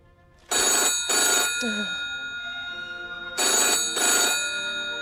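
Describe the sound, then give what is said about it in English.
A telephone bell rings in two loud bursts of double rings separated by a pause, with a brief faint voice heard between them. “gets up to answer the phone, but it stops ringing.”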